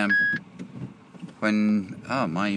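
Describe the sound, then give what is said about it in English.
Electronic beeping from a car Bluetooth system trying to connect to a phone: a short, clear beep, then a pause, then further loud, harmonic-rich electronic tones. “when my silly thing in the car doesn't work. It's basically a Bluetooth trying to pick up the phone.”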